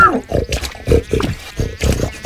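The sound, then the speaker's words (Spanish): A pig grunts and oinks while passing by, a loud series of rhythmic, rough low grunts in quick succession. “Más tarde pasó por ahí don Gervasio rebotando de las aguas puercas, el cerdo más importante del lugar”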